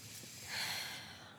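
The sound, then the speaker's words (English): A person takes one deep breath, heard alone as a soft, airy hiss that swells briefly and then fades. “Let's take a deep breath.”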